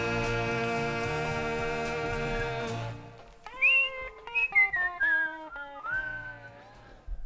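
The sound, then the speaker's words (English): A person whistles the song played at halftime, a clear, fairly loud run of several notes that mostly steps downward in pitch, heard after a sustained, chord-like tonal passage. “What's your whistling? It's the song that we play at halftime.”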